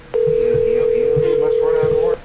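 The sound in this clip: Ringback tone on an outgoing telephone call: one steady, continuous mid-pitched tone lasting about two seconds, with faint voices beneath.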